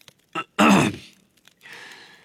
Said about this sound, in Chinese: 斯内普的表情就好像是听说圣诞节被取消了一样，他清了清喉咙说。